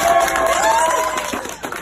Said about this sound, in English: And then wheeling him down the hallway, lined with cheering staff, recorded here by the hospital.